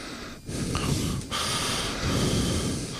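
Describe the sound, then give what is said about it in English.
Close breathing into a microphone held too near the mouth, heard as rough, hissing breath noise in a few long, heavy puffs, with no talk. “we have been made aware that occasionally we breathe into the microphone. We've got it too close, like this.”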